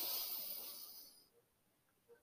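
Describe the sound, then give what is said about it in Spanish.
A deep breath drawn in through the nose makes a soft, airy hiss that fades away over about a second, leaving near silence. “Respiremos una vez más. Inhala por la nariz”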